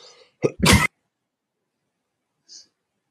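A short cough from a dry throat: a quick catch of breath, then one harsh burst, followed by silence and a faint click.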